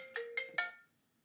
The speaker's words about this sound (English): always seems to happen that I get a phone call during the podcast.